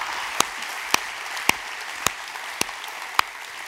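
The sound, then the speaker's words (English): Church audience applause welcoming Alamance County into Summit Church, a steady wash of clapping with several sharp, distinct claps standing out at regular intervals. “could we put our hands together and welcome Alamance County as a part of our church?”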